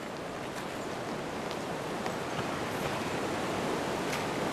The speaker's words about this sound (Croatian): Ovo je rijeka Prelaska. Za mnoge je ona bila put do nekog slobode, do svog rođaka, do traženja azila, do čega bošta dođe.